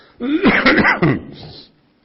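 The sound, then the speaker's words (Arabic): A harsh cough with throat clearing: two rasping, voiced bursts, the first longer and the second shorter, loud and alone. “نعتذر منكم بس عشان موضوع الكحة”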